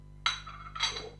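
A plate set down gives two short, bright clinks about half a second apart, fairly faint, over a steady low hum.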